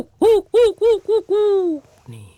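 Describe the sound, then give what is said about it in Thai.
A voice imitates an owl hooting at night: five loud, rounded hoots, four short and evenly spaced, then one long drawn-out hoot that sags in pitch at its end. “มันคือนกฮูกตัวหนึ่งนั่นเอง”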